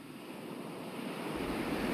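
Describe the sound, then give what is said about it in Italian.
Sea waves breaking on a beach give a faint, steady rushing wash of surf with a low rumble that swells slightly toward the end. No voices are heard. “Dicono che il mare, con le sue onde che cantano ogni qualvolta si infrangono sulla spiaggia, sappia regalare le risposte.”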